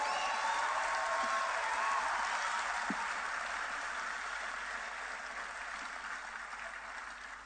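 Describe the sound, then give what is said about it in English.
Church audience clapping as an offering to the Lord: a soft, continuous patter of many hands that gradually fades. “Give the Lord a wonderful clap offering.”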